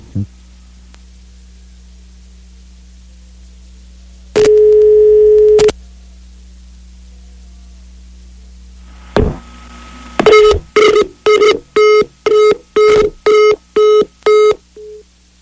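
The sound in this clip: Telephone line tones while a call is dialed and connected: a steady tone lasting about a second, a sharp click, then a rapid run of many short, evenly spaced tone bursts over a faint low hum.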